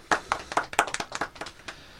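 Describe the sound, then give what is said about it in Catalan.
Applause for a guest on a quiz program: a short burst of scattered, uneven hand claps from a few people, fairly faint, lasting about two seconds. “Un aplaudiment.”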